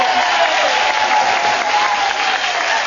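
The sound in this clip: A studio audience applauds to welcome a game show host, with dense, steady clapping that stays loud throughout and a faint crowd murmur mixed in.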